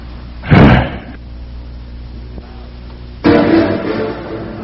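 A door being opened, with a heavy, low thud near the start and, after a pause, a second, longer, rougher burst of noise. No one speaks.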